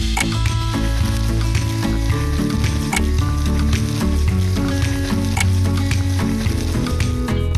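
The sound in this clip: Food fries in a pan with salad oil, a loud, steady sizzle of dense crackling and spitting pops that continues without a pause the whole time.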